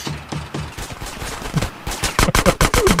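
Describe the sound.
Video game gunfire crackles in rapid bursts of automatic shots, loud and percussive, with the firing growing denser and harder toward the end.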